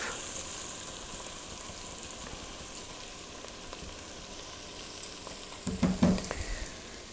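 Onions frying in a Dutch oven give a steady, soft sizzle, with a brief burst of stirring clatter near the end.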